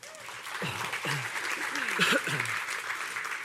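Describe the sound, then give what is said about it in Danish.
Audience applause welcoming a guest at Aalborg Citykirke church, steady clapping that holds throughout while a voice speaks over it. “Vi har et par stole her, vi kan sidde på. Giv lige Julie en hånd.”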